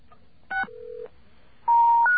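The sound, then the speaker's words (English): Touch-tone keypad beeps dial a long-distance access code on a telephone, a few short, clean electronic tone bursts separated by a brief gap, fairly loud and alone. “we have to enter our special code there”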